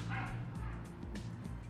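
A dog barking, a few faint bow-wow barks and yips over a low background hum.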